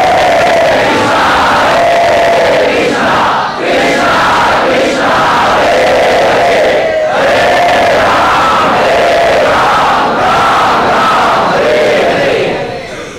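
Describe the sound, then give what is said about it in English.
Loud audienceal chanting by a crowd at Sri Sri Radha Gopinath temple, many voices in unison repeating a melodic phrase that rises and falls, continuous and strong throughout. “To illuminate our hearts and the hearts of others through the loud congregational chanting of”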